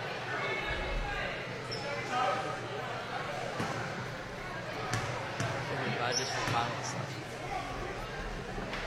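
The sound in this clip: Basketball bounces on a court floor as a player at the free-throw line prepares her shot in the fourth quarter. A few dull thuds sit under a steady crowd murmur, with a commentator talking throughout.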